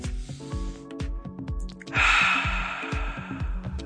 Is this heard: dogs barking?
no